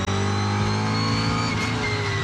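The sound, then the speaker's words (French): A rally car's lightly tuned V8 engine runs with a deep, throbbing drone and rich harmonics. It stays loud and steady throughout, with a brief wobble in pitch partway through and no voices. “Tout de suite, il y a quelque chose qui m'enchante les oreilles, c'est le son du moteur V8.”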